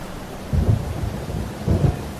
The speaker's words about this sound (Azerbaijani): Allah, ne yağış yağır.